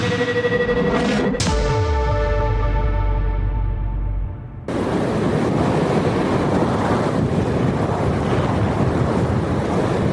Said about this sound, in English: I have no idea how difficult it is to find an appropriate sound effect for clouds, but I think this is pretty good.